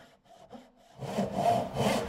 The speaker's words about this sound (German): Man muss alleine schon die Säge eher so halten, als Verlängerung vom Arm und nicht so.